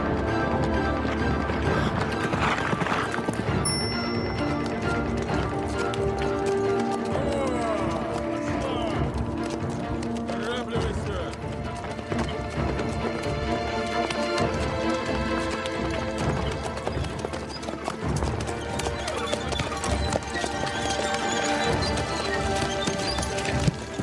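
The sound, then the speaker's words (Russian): Hooves of a walking horse clip-clop in a steady, repeated rhythm, blended with a dense bed of other background sound throughout. “на лошади продолжает путь.”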